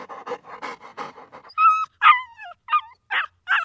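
A dog whines in five high, wavering cries, the second sliding downward, after a stretch of quick, rough panting.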